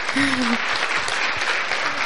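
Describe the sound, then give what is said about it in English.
Applause from a church audience, a sustained round of dense, overlapping hand clapping that stays steady and fairly loud from start to finish with no clear breaks. “Can we give a round of applause at the risk of waking the baby?”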